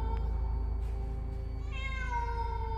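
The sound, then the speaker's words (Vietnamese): A black cat meows inside a dark house, one drawn-out, fairly faint cry rising out of a steady low hum. “lời vừa dứt thì trong nhà vang lên một âm thanh. Ấy là tiếng mèo kêu. Tiếng mèo vang vọng trong bóng tối.”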